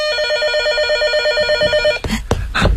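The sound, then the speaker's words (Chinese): A telephone rings with a rapid, warbling electronic trill for about two seconds, then cuts off as a few loud clattering thumps follow. “电话， 快快快！”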